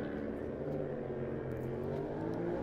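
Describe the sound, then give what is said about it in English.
An Aprilia racing motorcycle pulling away from the start of a road race, a steady, fairly faint engine roar and whir that holds without clear peaks. “Then again, the Aprilia of Martin Morris. He gets away.”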